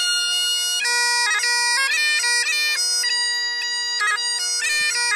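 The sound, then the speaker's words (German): Bagpipes play Scotland the Brave: a steady droning bass note holds underneath while the chanter skips through the melody with quick ornamented grace notes, loud and continuous throughout. “Aber wir können mal ganz kurz reinhören, wie überhaupt ein Dudelsack klingt.”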